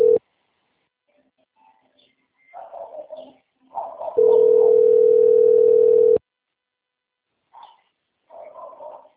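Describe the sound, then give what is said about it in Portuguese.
Ringback tone of an unanswered outgoing phone call: a steady single-pitch tone, with a brief burst at the start and a longer two-second burst later. Faint scattered sounds fill the silent gaps. “Chamando, nem não atende. Segunda vez, né?”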